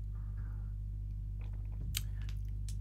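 Crisp crunching as someone chews green tea peanut candy, a few sharp bites clustered in the second half over a steady low hum.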